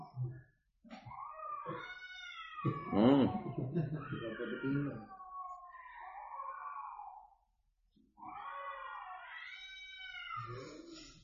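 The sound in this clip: A cat meowing in long, wavering, moan-like cries. Several drawn-out calls come one after another, with a short pause partway through.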